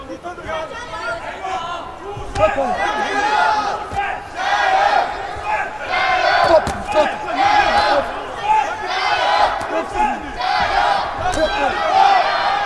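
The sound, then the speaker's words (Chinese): A fan club cheering for athlete Zhu Shuai at a competition: loud, rhythmic crowd chanting and shouts rising and falling in repeated waves. “现场也有朱帅的粉丝团啊，在为朱帅加油助威。”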